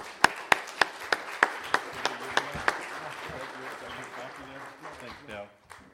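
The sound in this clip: A church audience at Spider Lake claps to welcome a guest. A steady run of sharp, evenly spaced claps rings out, then eases into softer clapping as voices talk over it.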